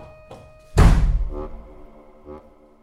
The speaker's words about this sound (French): Elle part en courant. Elle claque la porte de sa chambre.